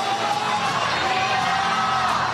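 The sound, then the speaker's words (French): A stadium crowd cheering Pope Leo XIV as he rides through in the popemobile: a continuous roar of many voices with shouts mixed in, holding a steady level without clear breaks. “puis parcourt le stade en papa mobile sous les acclamations et le Viva el Papa”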